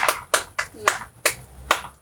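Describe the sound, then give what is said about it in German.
Six sharp, fairly faint handclaps in a slow, uneven rhythm, a small closing round of applause from just one or two people. “Ja, Applaus wäre richtig cool, wenn wir so zum Abschluss nochmal uns verbeugen könnten. Ja. Muss reichen. Ein Applaus.”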